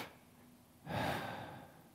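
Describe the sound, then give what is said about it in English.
A single deep inhale of breath, a soft breathy rush that begins after a brief quiet moment, swells quickly and then fades slowly over about a second, with no talking. “when we breathe, the breath that we take, that when we inhale, it's like,”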